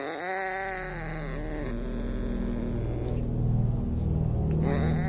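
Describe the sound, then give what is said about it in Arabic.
A horror-story sound effect of a cat crouched on a sleeping boy, making a strange, eerie yowl: drawn-out, wavering tonal cries bend in pitch over a steady low rumble, lasting several seconds. “فتحت باب القطة ودخلت عشان ألاقي إيه؟ حسن ابني نايم والقطة قاعدة فوقيه وبتطلع الصوت ده.”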